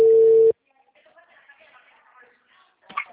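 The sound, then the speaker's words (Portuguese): A telephone tone while a call is being placed: one steady, mid-pitched beep lasting about half a second. A faint, muffled voice follows at low level. “Eu mandei uma mensagem no seu WhatsApp, e como você não viu, eu preferi dar uma ligadinha, tá?”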